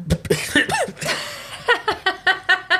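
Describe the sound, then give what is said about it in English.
A person coughs and sputters after choking. Short, harsh bursts come in an uneven run, some voiced and laugh-like, then a steadier series of quick, strained gasps. “Sorry, I choked on myself.”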